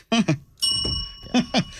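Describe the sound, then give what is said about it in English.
A bell is struck once and its bright ringing tone sustains for over a second, with voices talking briefly before it and again as it fades. “I don't have a bell over here. Sorry, I borrowed it.”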